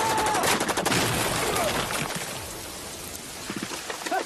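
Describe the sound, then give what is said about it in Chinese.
Machine gun fire in a trench battle against American soldiers: dense crackling bursts at the start fade into a rough, noisy wash, with a few sharp cracks returning near the end. “枪声响起来，美军士兵在陈彦宗的机枪扫射下纷纷倒了下去。”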